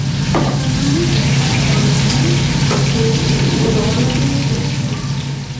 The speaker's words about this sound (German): Nach einer herzlichen Umarmung geht es wieder zurück in die Küche.